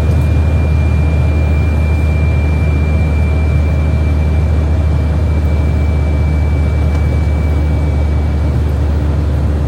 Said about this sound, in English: There is a high-pitched sound going through the car as soon as the load increases. I'm not particularly sure what it is, but I think it's from the gearbox. Here it comes again.